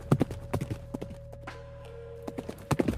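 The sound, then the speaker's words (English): Horse hooves clip-clop as a rider comes into a city, sharp hoof strikes in uneven clusters at the start and end with a quieter stretch between, over a faint steady tone. “your sister Yalissa, as she's like kind of like falling off the horse, riding into the city, clutching her side”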